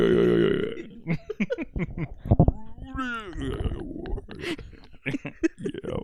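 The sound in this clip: Burping after a hit from a long bong with more than one chamber: a run of deep, croaky belches with gurgling and grunting tones, mixed with people talking.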